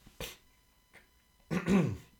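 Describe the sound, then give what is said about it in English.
Throat clearing from phlegm left after a cold: a sharp rasping burst, a faint brief one, then a longer, rougher voiced clearing, with no talk. “Sorry, I still got a bit of phlegm from my cold that I had last week.”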